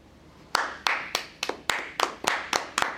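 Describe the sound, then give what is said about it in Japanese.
Sparse, dry hand clapping from just three people: a thin patter of many separate, sharp claps at an uneven, slightly spaced rhythm, each clap crisp and short with no crowd roar behind it. “すげー乾いた拍手が、 はい、 3人しかいないからっていうことにしとこうかな パラパラとした”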